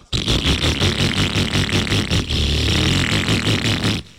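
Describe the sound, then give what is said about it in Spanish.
A motorcycle engine running rough clatters loudly and continuously for about four seconds, with rapid rhythmic pulses and a harsh scraping rattle before stopping suddenly. “Si su moto está sonando así”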